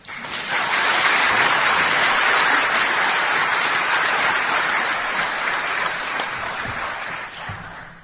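Applause from an audience after a bishop reads his verses at an evening gathering. Dense, steady clapping swells quickly in the first second, holds strong, then gradually thins and fades toward the end.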